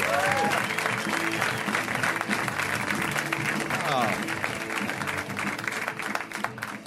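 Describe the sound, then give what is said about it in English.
Dense applause from a comedy club audience welcoming a stand-up comedian to the stage, a continuous roar of clapping with a couple of brief whoops, tapering a little in the final seconds. “Ladies and gentlemen, very funny man, Mr. Shane Moss. Give it up for Shane. Come on!”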